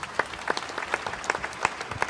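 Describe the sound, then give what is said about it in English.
Audience applause closing a conference panel session. Separate claps stand out at an uneven pace, fairly quiet and without voices. “give yourself a big hand of applause for being such a great audience, please”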